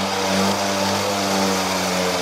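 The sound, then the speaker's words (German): Engine of a blue Simson moped, an East German cult model, droning steadily and fairly loud for about two seconds with a buzzing mid-pitched tone. “Er fährt zum Beispiel auf einer blauen Simson, einem DDR-Kultobjekt, durchs Land.”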